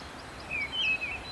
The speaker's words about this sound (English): And then there's a missel thrush, which I think has one of the saddest songs. Just little phrases.